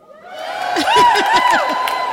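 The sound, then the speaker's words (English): A live audience in Harrogate shouts hello all at once: a short, loud burst of many voices, with cheers and whoops swelling together and then fading slightly. “I'm here in Harrogate with an amazing live audience. Say hello to everybody listening.”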